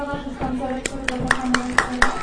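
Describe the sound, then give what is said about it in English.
Audience clapping as a choir walks on stage, a run of sharp, evenly spaced claps that settles into a steady rhythm while a voice talks over it. “Please give them a big round of applause as they come on the stage.”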